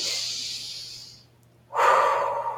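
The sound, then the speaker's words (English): A person takes a deep breath: a long, airy inhale, then a brief silence, then a louder, lower-pitched exhale. “Do me a favor, take a deep breath.”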